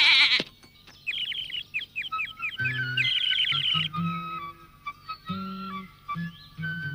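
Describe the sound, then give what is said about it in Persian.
A bird chirps in a quick run of short, high, repeated tweets, joined by lower drawn-out animal calls in a stop-start pattern, fairly quiet and with no talk. “یه پرنده”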